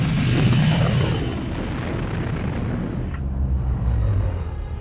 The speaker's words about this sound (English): Computer, cancel the diagnostic, activate remote release from the rooftop, and bring thrusters and weapons online. Hang on, sir!